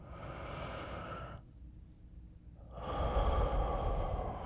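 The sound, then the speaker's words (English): A deep breath drawn in on request during close muscle work: a long, airy inhale, a short silent pause, then a louder, rougher breathy exhale. No speech. “Deep breath for me. Inhale.”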